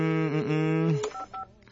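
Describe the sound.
Telephone keypad dialing tones: two short, evenly spaced dual-tone beeps sound near the end, each crisp and clear. They follow a longer sustained tonal sound.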